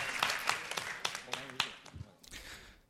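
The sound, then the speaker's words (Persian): An audience gives scattered applause at a talk. Several separate, sharp hand claps ring out irregularly and faintly, then thin out and fade. “بیخیال، خودتون رو تشویق کنین.”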